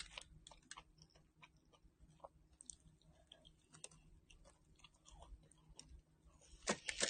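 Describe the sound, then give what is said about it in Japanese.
Quiet chewing of a Mister Donut doughnut coated in powdered sugar, with many small irregular clicks and soft moist bites. The sounds are faint throughout and grow a little louder near the end. “ちょっと白いとこ食べてみよう。白いところ。”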